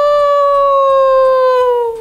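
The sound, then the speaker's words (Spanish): A coyote howls in one long, loud, steady note that drifts slightly lower toward the end, with nothing else heard. “El coyote no estaba de acuerdo y aulló: au, au.”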